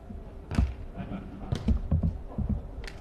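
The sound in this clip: Dull thumps and sharper taps of a volleyball being struck during a serve in a tense match by a Nanjing city team, a few scattered impacts over steady low court noise.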